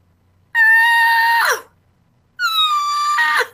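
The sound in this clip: A voice imitates a yelp twice, each a sustained high, strained call of about a second that breaks sharply downward in pitch at the end, with a short silence between the two.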